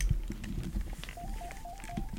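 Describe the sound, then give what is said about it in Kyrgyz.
Faint telephone tones from an incoming call connecting on a radio show: a short series of evenly spaced beeps sounds over a low, muffled background. “азыр бизде чалуу бар, кабыл алып алалы”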